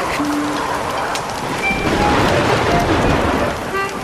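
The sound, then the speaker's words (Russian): Rain pours steadily and streams down a window glass, a dense and continuous hiss of drops and running water that stays loud throughout without a break. “За окном льет дождь, по стеклам окна бегут струи воды.”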